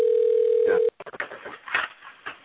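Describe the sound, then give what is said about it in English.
A steady, loud telephone dial tone sounds on a call-in line while a guest is being called, then cuts off abruptly as someone starts talking. “I'm calling my next guest, and I forgot to put y'all on hold.”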